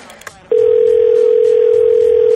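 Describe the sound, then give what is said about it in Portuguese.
A telephone dial tone sounds while a call is being placed: a steady, unbroken mid-pitched hum that starts abruptly after a few brief handling noises and holds at constant loudness to the end. “vamos ligar aqui pra uma pessoa”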